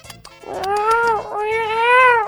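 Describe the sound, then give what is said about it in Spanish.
A cat meows in two long, drawn-out calls, the first swelling and fading and the second following almost without a break. Both are loud, clear and tonal, with a faint low rumble underneath. “¡Mira cómo maulla ese gato!”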